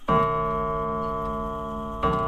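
An antique clock in the prince-archbishop's residence rings with a rich, sustained metallic tone, struck twice, the second strike near the end, alone and fairly loud.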